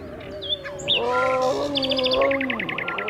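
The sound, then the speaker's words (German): Startled wild birds cry out over the water at a zoo at night, a busy jumble of tweets and sliding, tonal cries that ends in a quick run of sharp repeated chirps. “Aufgescheuchte Wildvögel kreischen gellend über dem Wasser.”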